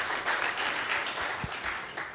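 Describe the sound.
An audience applauding at a talk: a dense, steady patter of many hands clapping throughout, fairly faint and even.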